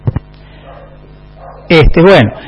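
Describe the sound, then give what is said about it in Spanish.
Several dogs bark as a visitor arrives. Two sharp barks come first, then a louder burst of a few high, yelping barks after a quiet gap. “Llega Micaela, los perros ladran, hay que entretener.”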